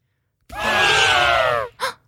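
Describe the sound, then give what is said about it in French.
An elephant calling out with a loud trumpeting blast lasting about a second, its pitch falling slightly, followed by a short second burst. “Oh ! Arrêtons-nous ! Qui est-ce qui crie ? Je crois que c'est notre ami Timbo l'éléphant.”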